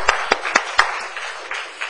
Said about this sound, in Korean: 우리 격려의 박수 한번 부탁합니다